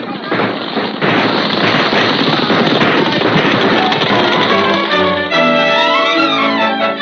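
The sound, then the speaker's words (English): Dramatised gunfire during a bank robbers' getaway after the vault is blown: a dense, continuous crackle of many rapid shots, loud and unbroken, with tonal sounds joining in the last couple of seconds. “The robbers got away after a running gun battle, and with them went $5,000 from the vault of the Bank of Wellston.”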